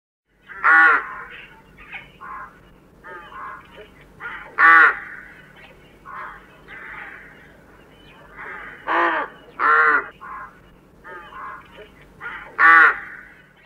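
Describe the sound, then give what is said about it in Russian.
A rook calls with several loud, harsh caws spaced a few seconds apart, mixed with softer throaty chatter between them. “Грач.”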